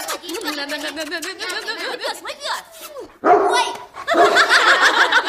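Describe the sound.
A dog barks and yelps amid people talking and laughing. There are a few short calls early on, then a louder, rougher stretch of barking toward the end.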